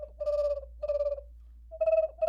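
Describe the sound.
Call of an ashy perched quail, given as a few mellow, cooing whistled notes at a middle pitch, each held briefly and separated by short pauses, over a faint low steady hum.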